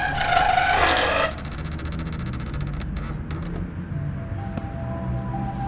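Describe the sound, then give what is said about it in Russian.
A key inserted and pressed in a door lock as the door opens: a loud, grating metallic rasp, then a few faint clicks and light rattling over a steady low hum. “Вставляет ключ в замок, нажимает на ключ. Дверь открывается.”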